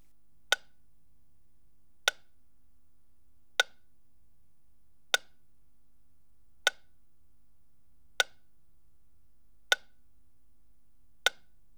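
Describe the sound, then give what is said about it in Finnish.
Eight sharp ticks of a test signal from the right front speaker of a surround setup, evenly spaced about a second and a half apart, crisp and bright over near silence. “Seuraavan tikityksen pitäisi kuulua oikeasta etukaiuttimesta.”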